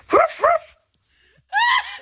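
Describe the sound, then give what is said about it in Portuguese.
A person imitating a dog barking gives two short, sharp barks, a pause, then a longer, drawn-out yelping bark. The voice is loud and mimics a dog without speaking. “Eu não sei porque é que estou a ladrar.”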